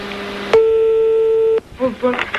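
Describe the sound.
A telephone ring tone sounds as a call is placed: one steady electronic tone lasting about a second, then a voice speaks briefly.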